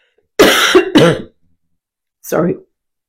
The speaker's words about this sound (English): I've been grappling with a little tickle in my throat, a cough for a little while, so I apologize about that.